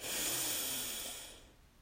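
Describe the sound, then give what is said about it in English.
Slow, deep breathing: one long, airy breath that stays loud, then fades away toward the end, alone and without talk. “One last breath in. Breathe in”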